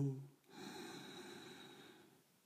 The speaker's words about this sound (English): let's just take a slow, deep breath in.